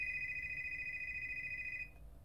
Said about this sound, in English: pick it up. It might be him. But it's his phone.